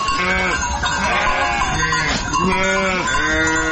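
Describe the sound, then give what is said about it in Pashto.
Bleating of a flock of hundreds of sheep tended by a nomadic herder on drought-stricken desert pasture in Ghazni's Qarabagh district. Many overlapping wavering bleats run loudly and continuously without pause. “د غزنی قره باغ ولسوالۍ په باغیا تر دښته کې د سلګونو پسونو رمه پیایي”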